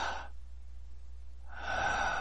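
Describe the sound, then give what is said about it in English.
A person takes a breath, a soft airy rush of air that fades into near quiet and then returns as a fuller, steady breathing sound. “I take a breath.”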